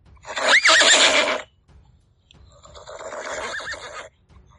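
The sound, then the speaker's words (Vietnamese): A horse rears and neighs with a loud, wavering whinny, then a second, quieter drawn-out whinny follows after a short pause, with no talk. “Bà mã dưới người hắn đột nhiên dừng lại, chân trước chồm lên không, gần như thành một góc 90 độ so với mặt cỏ. Cất tiếng hí như không dứt”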